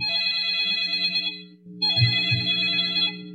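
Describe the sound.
Telephone ringing for an incoming call: two bursts of a bright electronic ring tone separated by a brief pause, each steady and sustained at a moderate level, with a faint low hum underneath.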